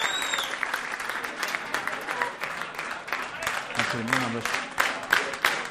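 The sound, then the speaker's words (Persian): A class applauds in honour of its teacher, with steady, fairly soft clapping throughout and a voice briefly heard over it partway through. “به افتخار استادتون یه دست مرتب.”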